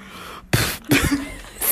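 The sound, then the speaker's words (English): Someone breathes hard straight into a phone microphone, and three harsh, distorted gusts of air cut through a low steady background. “No, I just breathed into the phone and I just like forgot how to breathe.”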